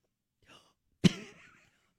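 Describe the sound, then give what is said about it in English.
A person coughs once while trying to swallow air to set off a burp. The cough is a sharp, brief burst that quickly trails off, with a faint short breathy sound before it. “It just made me cough.”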